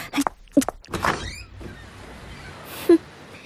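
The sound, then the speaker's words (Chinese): An office door being opened: a few sharp latch-like clicks, then a soft rush of air as it swings, and one more short click near the end. “你把门打开。”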